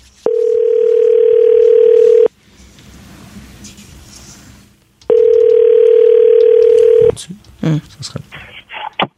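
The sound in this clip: A telephone line tone sounds while a call is being placed: two long, steady, even-pitched tones of about two seconds each, separated by a quieter pause, then brief clicks and bursts at the end.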